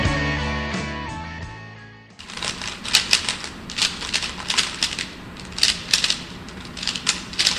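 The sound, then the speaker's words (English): Rubik's Cube being turned rapidly, as in speedcubing: a fast, irregular clatter of many crisp plastic clicks that begins right after a short musical passage ends. “You hear that? That's the sound of a Rubik's Cube.”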